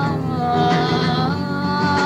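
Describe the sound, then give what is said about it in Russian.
A cat meows in one long, drawn-out, steady cry that is loud and fills the whole moment, with no voices over it. “Кошка и выкралась на крыльцо,”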